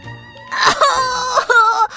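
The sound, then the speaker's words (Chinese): A child cries after being struck on the head: loud, wavering wails and sobbing moans in a few drawn-out bursts with short breaks between them. “他捂着脑袋，忍不住哭了出来。”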